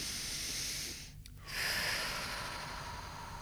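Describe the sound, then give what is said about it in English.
A deep breath in and out, taken during an EFT tapping session for anxiety: a breathy, hissing inhale, a brief pause, then a longer, steady exhale, alone without talk. “So then we would just take a nice deep breath in and out.”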